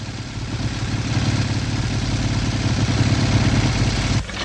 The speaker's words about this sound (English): A policeman pulls up on a motorcycle.